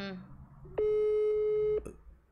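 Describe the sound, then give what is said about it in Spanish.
A telephone call tone sounds while a number is dialed for a call to the United States: one steady, mid-pitched electronic tone with a buzzy edge, held for about a second and then cut off. “voy a marcar a Giovanni. A ver si te contesta.”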